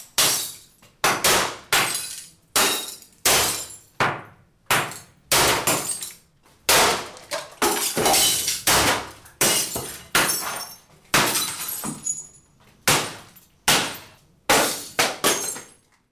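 Glass shatters again and again: many sharp, crashing bursts of breaking glass follow one another in a steady, uneven rhythm. Each smash is loud and bright with a quick decay, and no voices are heard.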